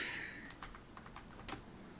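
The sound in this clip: Computer keyboard typing during a web search: a few quick, light keystroke clicks tapping out unevenly over a soft, steady background hiss, with no voices.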